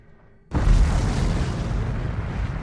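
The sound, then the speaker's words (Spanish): A deep explosion boom from the first Soviet atomic bomb test in the Kazakh desert bursts in suddenly and gives way to a loud, sustained low rumble that continues to the end. “En el desierto de Kazajstán, la primera bomba atómica soviética está lista.”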